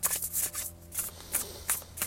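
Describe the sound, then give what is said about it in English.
Cards riffle and slide as a deck is shuffled: a few soft, papery rustling bursts in an irregular rhythm, each brief and airy, with no talking. “I'm going to shuffle my deck”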